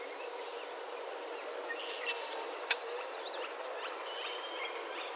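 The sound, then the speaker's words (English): Forest ambience with insects, where crickets keep up a steady, high, pulsing trill throughout and a few faint, scattered chirps show through underneath. “This is a mosaic of the sound of different forests from around the world.”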